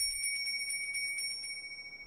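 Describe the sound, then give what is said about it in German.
A small silver bell rung by hand for a Christmas gift-giving, a quick series of bright, high tinkling strikes that fade over about two seconds, alone without voices. “Hanno wartet ungeduldig, dass Ida endlich mit der kleinen Silberglocke zur Bescherung läutet.”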